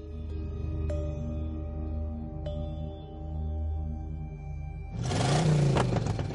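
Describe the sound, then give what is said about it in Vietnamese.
A car engine roars at full throttle as the vehicle speeds away from a pond onto a national highway: a steady low, droning hum gives way to a sudden loud, broad surge of roaring noise near the end. “Tiếng động cơ xe gầm lên hết cỡ”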